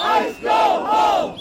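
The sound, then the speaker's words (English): Protest crowd in Minneapolis chanting against federal immigration officials after the fatal shooting of a nurse, many voices shouting a short slogan in loud, rhythmic repeated phrases. “Well, that's the sound of protest sparked by the fatal shooting of nurse and US citizen Alex Preti in Minneapolis by federal immigration officials”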